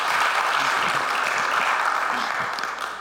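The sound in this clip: An audience applauds as a speaker is welcomed up to teach. The clapping is steady and full and gradually thins and softens toward the end.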